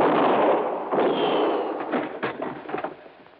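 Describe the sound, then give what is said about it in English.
Gunshots ring out in a tense standoff between an investigator and an armed man, a few sharp cracks and bursts over a rough, noisy roar that slowly fades. “Now, well, I can see the flash of your gun.”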